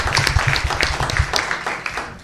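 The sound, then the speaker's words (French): Clapping from a workshop audience thanking two presenters, a loud, steady patter of many individual claps with sharp hits scattered throughout. “On va les applaudir, Yves et Josh.”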